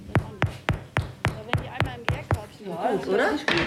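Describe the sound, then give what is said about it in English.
Knuckles rap on baked bread loaves to test whether they are done, a quick, even series of hollow knocks, followed by people talking. “So, und jetzt machen wir mal die Klopfprobe.”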